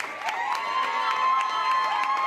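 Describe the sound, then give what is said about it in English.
Teachers, parents and classmates lining a hallway at Rolleston Community School clap and cheer graduating grade 8 students out, with crisp claps under sustained shouting and whooping voices. “Teachers, parents, and fellow classmates lined the hallway to clap out the graduating grade 8 students at Rolleston Community School near St. Clair and Oakwood Avenue.”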